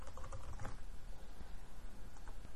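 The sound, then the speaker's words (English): Typing a password on a computer keyboard while setting up a new Gmail account: a dense, continuous patter of key clicks over steady noise, with no talk. “We type that same password.”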